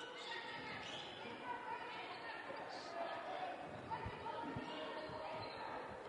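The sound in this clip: A basketball is dribbled on the court during a game, a few low thuds of the ball bouncing under steady crowd murmur and chatter.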